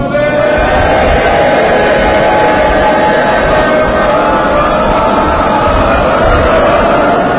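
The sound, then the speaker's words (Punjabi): A crowd shouts a Sikh jaikara together in unison to honour a martyr, producing a loud, sustained wall of massed voices that holds steady throughout without breaks. “ਮੇਰਾ ਮਨ ਕਰਦਾ ਸਾਰੇ ਮਿਲ ਕੇ ਇਸ ਮਹਾਨ ਸ਼ਹੀਦ ਦੀ ਸ਼ਹਾਦਤ ਨੂੰ ਸਜਦਾ ਕਰੀਏ ਤੇ ਸਾਰੇ ਮਿਲ ਕੇ ਇੱਕ ਜੈਕਾਰਾ ਬੁਲਾਓ।”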